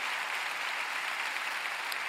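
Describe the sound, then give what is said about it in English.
Applause from a church audience at a Christmas service, a steady, dense clapping that lasts about two seconds with no talk over it. “can we all just put our hands together and welcome all of those that are tuning in?”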